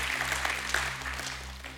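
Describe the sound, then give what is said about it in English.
Congregation clapping in praise during a church service: a steady, dense wash of many hands applauding with no break, over a low, constant electrical hum. “give God the hand, clap of praise.”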